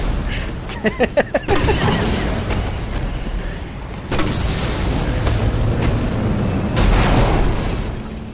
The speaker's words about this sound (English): Lots more rocket launchers than usual in this game.